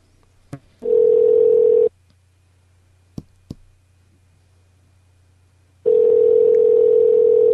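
Telephone ringing tone on an outgoing call: two long, steady mid-pitched tones separated by a pause of about four seconds, with a few sharp clicks in between and no voices.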